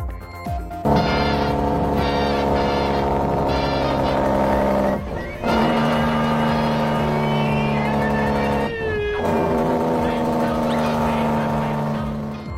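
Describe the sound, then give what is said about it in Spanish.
A car built as a replica of the stone-age cartoon car gives a steady, droning engine sound with strong tonal hum, continuous for about twelve seconds apart from two brief dips. “Un usuario de TikTok captó a este vehículo que es una copia del famoso troncomóvil, el vehículo de los picapiedra.”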